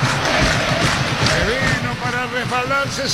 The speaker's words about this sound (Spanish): Señoras, señores, el público de Olimpia, escuchen. El público de Olimpia.